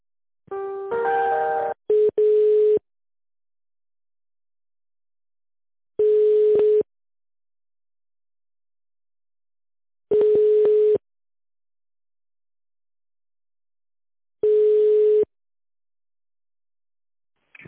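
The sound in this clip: Telephone line tone while a call is being transferred from an accounting department, a brief multi-tone jingle followed by four identical steady beeps spaced about four seconds apart, with silence between them.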